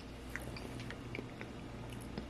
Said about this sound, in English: All right, so let's first try the potatoes, actually. They look pretty bland, I'd say. Just like herb potatoes, but how do they taste?